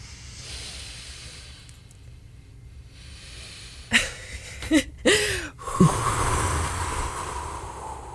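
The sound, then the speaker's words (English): A deep breath taken during a short guided relaxation moment: several breathy inhales and exhales with sniffing, airy edges, rising out of a steady low hiss. “Right now, let's take a breath.”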